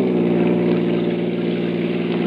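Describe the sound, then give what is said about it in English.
A car engine runs on a curving canyon road, a loud, steady low hum with a rich layered drone and slight pulsing, alone with no talk. “A car had come around the curve behind us.”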